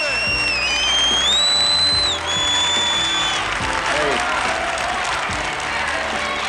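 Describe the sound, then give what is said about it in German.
A boxing crowd cheers and applauds in a radio drama as fighters are introduced ahead of a Joe Frazier bout at Madison Square Garden, a dense roar of clapping with shrill whistles rising above it. “Sie hören sich wie ein Boxpublikum an.”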